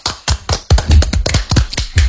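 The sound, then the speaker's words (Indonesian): Loud, close hand claps applauding a guest, many strikes in a quick, slightly uneven rhythm, each with a heavy, thumpy body. “Tepuk tangan untuk Bram.”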